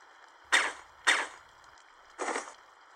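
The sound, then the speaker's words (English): Gunshot sound effects in an audio drama: two sharp, bright reports in quick succession, then a third broader, flatter burst, each standing out against a quiet background. “The bullet makes sure he's dead before he even realizes what's happened.”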